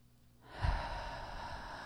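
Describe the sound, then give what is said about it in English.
A deep breath drawn in during a guided relaxation exercise: a soft, airy inhalation that begins abruptly and continues as steady breathy noise. “Take a deep breath in.”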